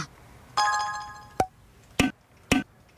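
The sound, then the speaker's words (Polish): Menu selection and Enter key sounds from the BeatStar audio game: a bright tonal chime rings first, followed by four short, sharp pinging clicks spaced about half a second apart. “Jak słychać, nawet są inne dźwięki, jak wybieram opcję, jak wciskam enter, bo każdy z tych paków może mieć inne te dźwięki.”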